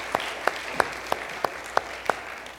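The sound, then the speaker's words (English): Applause from an audience welcoming a guest and his wife at a morning gathering, a steady bed of clapping with seven sharp, evenly spaced claps standing out in a brisk rhythm. “Would y'all give them a warm welcome this morning, please?”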